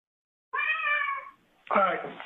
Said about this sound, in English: here's the audio, and just listen to, there's a particular noise the cat makes that reminds me of something